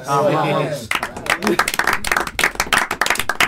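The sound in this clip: An audience applauds at the close of a live evening event at a rock gathering. A voice is heard briefly first, then loud, dense clapping from many hands continues to the end.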